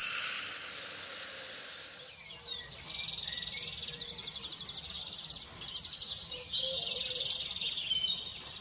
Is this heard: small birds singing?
yes